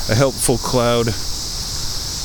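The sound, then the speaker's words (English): A small young cricket trills outdoors among logs in the shade, a steady high-pitched hum running the whole clip. A voice speaks briefly at the start. “There's a cricket, a little baby cricket.”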